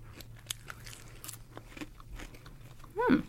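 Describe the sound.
Crunching of vegetarian bacon-flavour crisps: a few sharp, dry bites and chews at irregular intervals, quiet overall, then a brief hummed vocal sound at the very end.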